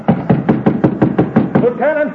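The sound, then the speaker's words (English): Hammer blows driving a golden nail into a wooden fort sign: a steady, even run of sharp, loud knocking strikes, followed by a brief voice at the end. “And now as I pound this golden nail...”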